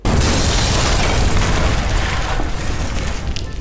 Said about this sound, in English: I'm going to try this with bigger explosives, magnesium gasoline and silt-based. I'll use squibs to electronically detonate, and I'll shoot it at 100 frames per second.